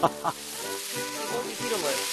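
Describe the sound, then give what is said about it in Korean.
Pork belly grilling with bracken fern for workers' lunch, a continuous sizzle of fat frying under a voice that speaks over it. “한편 작업자들을 위해 점심 준비가 한창인데요. 오늘의 메뉴는 고사리를 곁들인 삼겹살 구이.”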